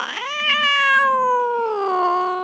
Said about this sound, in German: Nur einmal kam eine wilde Katze aus dem Wald,